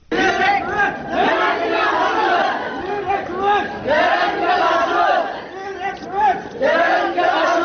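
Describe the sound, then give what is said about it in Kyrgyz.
About 5000 students chant anti-terrorism slogans while marching through central Kara-Suu, Kyrgyzstan. The loud, rhythmic shouting of many voices continues without a break. “Ушундай ураан чакырган 5000 окуучу бүгүн Карасуу шаарынын борбордук бөлүгүн бүт жөө кыдырып чыгышты.”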